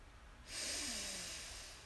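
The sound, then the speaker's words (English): A long, soft inhaled breath during a guided meditation breathing exercise, starting after a brief quiet pause and lasting over a second. “So let's begin. Breathe in.”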